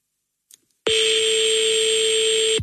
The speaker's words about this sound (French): Va-t-elle décrocher? Ah, je pense qu'elle va laisser sonner la coquine.